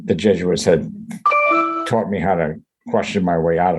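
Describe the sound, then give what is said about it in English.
A computer email notification chime: a short, steady, multi-toned chime lasting under a second, sounding between stretches of people talking. “That sounds like somebody's computer. Email, you got mail.”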